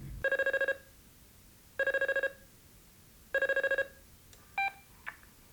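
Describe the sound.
A telephone rings repeatedly during a call to Santiago. Three evenly spaced ring bursts each carry a rapid warbling trill, followed by a couple of short, higher tone blips.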